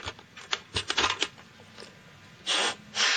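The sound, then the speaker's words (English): Air blown into a Nintendo game cartridge: a few light clicks and rattles of handling, then two short, loud breathy hisses of air. “Is that somebody bringing out a Nintendo cartridge and blowing air yes, into it?”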